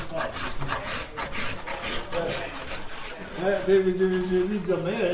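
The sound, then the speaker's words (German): Rasping and scraping of raw wood being shaped by hand into violin backs and tops with chisels, sandpaper and small copper planes: a steady run of repeated rough strokes that grows slightly louder in the second half. “Die Form der Geigenböden und der Geigendecken wird per Hand mit Stemmeisen und Sandpapier und kleinen Kupferhobeln aus dem rohen Holz geschält, geschabt, geraspelt und geschliffen.”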